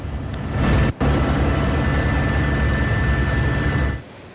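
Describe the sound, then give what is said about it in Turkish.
Firefighting helicopters and firefighting planes over a forest wildfire make a dense, loud, steady engine and rotor roar, broken by a brief dip near the start and fading away at the end. “Söndürme çalışmalarına da 3 helikopter ve 2 yangın söndürme uçağı da destek veriyor.”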